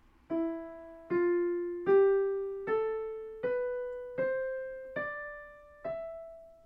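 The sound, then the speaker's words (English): An ascending Phrygian mode scale beginning on E, played as eight separate struck notes at a steady, moderate pace. Each tone decays before the next as the pitch climbs stepwise, with no talk. “The Phrygian mode, which sounds like this,”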